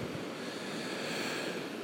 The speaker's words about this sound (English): Maybe you can hear the waves coming ashore. A little bit of white noise.